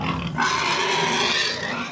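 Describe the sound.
Pigs grunting and squealing as they squabble over food, a loud, rough, continuous jumble of harsh grunts and cries with no talking.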